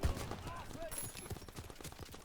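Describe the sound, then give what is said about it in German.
Rapid, faint gunfire from a PC video game, with many quick shots crackling in a dense, continuous stream under a noisy game mix. “Steh unter schwerer Beschuss.”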